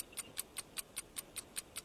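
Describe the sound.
A quiz game show's 60-second countdown clock ticks in a rapid, evenly spaced run of crisp, bright clicks at a steady rhythm, alone with no talk over it.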